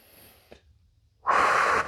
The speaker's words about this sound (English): Take a big deep breath in through the nose,